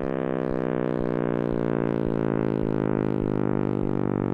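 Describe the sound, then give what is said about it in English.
A simulated sound of the universe expanding after the Big Bang, made by a University of Washington physicist: a loud synthetic drone with dense harmonics that slowly rises in pitch, pulsing at a steady beat throughout. “That noise is a simulation by University of Washington physics professor emeritus John Kramer of what the universe may have sounded like as it expanded after the Big Bang.”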